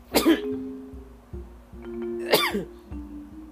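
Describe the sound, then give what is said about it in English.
A person sneezes close to a microphone: two sharp, breathy bursts about two seconds apart over a faint, steady low tone. “I had to move the mic away from my mouth because the sneeze, as you just heard”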